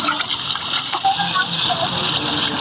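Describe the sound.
River water from the Kunar gushes steadily into a ten-litre yellow canister held firmly in both hands, a continuous rushing, gurgling flow.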